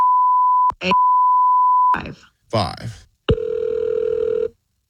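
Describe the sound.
Telephone tones as a call is placed: a long steady beep, a short break, then a second long beep, a brief burst of voices, and finally a lower buzzing tone that holds for about a second.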